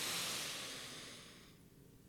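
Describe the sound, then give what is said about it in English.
A slow inhale through the nose during a paced breathing exercise, heard as a soft, airy hiss that starts strongest and gradually fades over about two seconds. “Let's be purposeful with that inhale. Inhale through the nose.”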